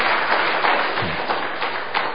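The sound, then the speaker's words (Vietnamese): Congregation applause offered to God and the Virgin Mary after a woman's testimony: a continuous wash of clapping at a steady, moderate level. “Xin dâng lên Chúa mẹ một tràng pháo tay.”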